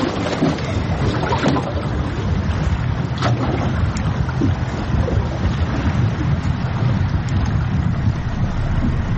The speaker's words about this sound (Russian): Мотор какой-то.